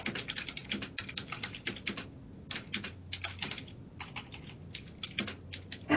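Rapid typing on a computer keyboard: many quick, uneven clicks and clatters in bursts with short pauses, fairly loud and alone with no voices.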